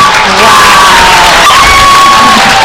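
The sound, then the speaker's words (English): A crowd cheers and shouts at the finish line of a timed race, with some clapping mixed in. The sound is loud and sustained and runs unbroken through the whole stretch. “Here all the CIA people cheering, all the crowd clapping.”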